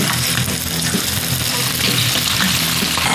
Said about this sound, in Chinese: 家养土鸡宰杀切块，大锅热油，葱姜辣椒奏响冲锋的号角，花椒开始助威呐喊，